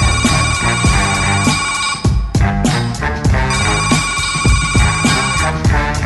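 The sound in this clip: A phone ringtone rings as an incoming call arrives, its bright repeating tones sitting inside a loud, dense, steady hip-hop beat with no talking.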